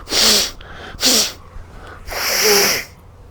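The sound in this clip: A person sneezes in three loud, breathy bursts separated by short pauses. The last burst is the longest, and no talk is heard.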